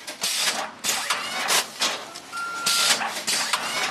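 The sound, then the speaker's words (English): Conveyor belts and shrink-wrap machines bag plant bulbs and roots packed in peat moss at a nursery warehouse. Many rhythmic mechanical bursts repeat at a fairly regular pace, with a short steady tone appearing midway. “Over in the warehouse, the musty smell of peat moss hangs in the air as bulbs and roots twirl through conveyor belts and shrink wrap machines into bags to ship to customers.”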